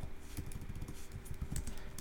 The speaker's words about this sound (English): And as I type this in,